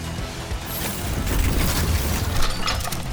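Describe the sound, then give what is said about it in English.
A computer terminal explodes into flame in a video game and engulfs a nearby agent. Dense, noisy crackling and clattering with crash-like bursts runs continuously for about three seconds, swelling slightly toward the end. “A terminal explodes and engulfs the nearby agent in flame”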